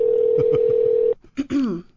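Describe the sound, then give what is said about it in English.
A telephone is dialed for a call. A steady dial tone hums for about a second, then breaks off into a few short, clipped tones. “We're calling my brother in Texas, and we're pranking him.”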